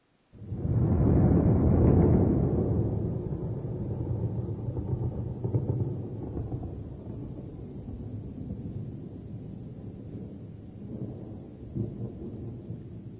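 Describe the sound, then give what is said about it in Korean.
Thunder rolls in as a deep, heavy rumble that starts abruptly and is loudest in the first couple of seconds. It then continues as a long, low, rolling growl that slowly fades over more than ten seconds. “천둥 소리네요. 네, 천둥 소리를 일본어로 표현하면 이렇습니다.”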